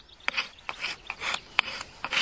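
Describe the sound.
Dry rasping scrapes as the back of a knife blade is drawn along wood to lift fine, sawdust-like shavings. Several short, separate strokes come in an irregular rhythm, each a brief hissing rasp, with no talking.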